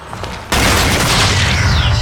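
Gunfire in a video game breaks out with a sudden loud blast about half a second in. It becomes a dense, sustained roar of shots that continues to the end.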